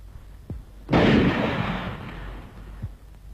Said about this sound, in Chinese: 开枪。